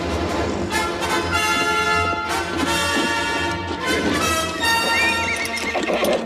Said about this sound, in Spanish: Prisa abajo la comitiva y espolea a su caballo.